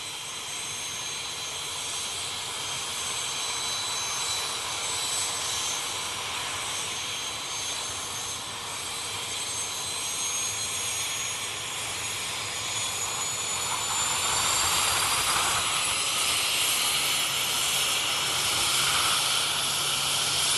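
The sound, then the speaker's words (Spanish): An airplane in flight on the way to Portugal, heard as a steady jet engine roar with strong hiss and a thin high whine, swelling slightly near the end. “Continuamos nuestro viaje. Nos trasladamos al país vecino de Portugal en avión.”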